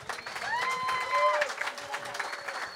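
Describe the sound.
Light, scattered applause from a live comedy audience at the Village Underground rises and dips briefly, with crowd voices mixed in.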